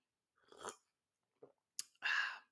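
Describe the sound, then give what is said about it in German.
Someone takes a sip of a drink: a few short, faint slurping and mouth noises separated by brief silences, ending with a slightly longer, louder gulp. “Ich will mal einen Schluck trinken.”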